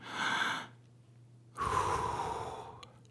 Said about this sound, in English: Take a deep breath.